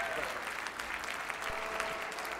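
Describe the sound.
A church audience claps to welcome guest speakers, a steady, dense patter of many hands with voices faintly mixed into the applause.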